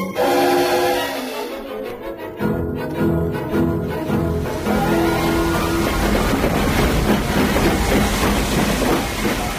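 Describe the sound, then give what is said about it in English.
A train pulls into a station with a steady, loud rumble and hiss that carries on without a break and stays fairly even in level. “She's pulling in right on time, 7:15. Miss Morgan be in a first or second class carriage?”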